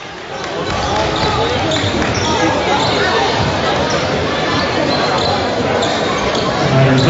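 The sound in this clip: Basketball bouncing during a game, as a player dribbles around defenders. Repeated bounces sit under constant loud crowd hubbub and chatter.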